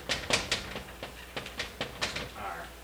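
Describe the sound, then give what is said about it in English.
Writing something down by hand during a lecture, heard as a quick series of light taps and scratches in short bursts. “I'll write that down because I think that's significant.”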